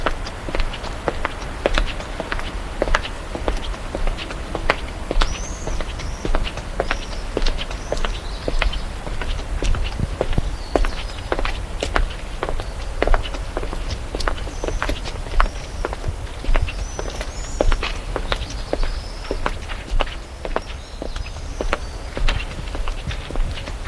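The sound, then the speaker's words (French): Brisk footsteps walk through deserted, dark streets in stifling heat: a long, steady run of quick, crisp steps keeps an even pace throughout, with no voices. “Il marche d'un bon pas dans les rues désertes et sombres.”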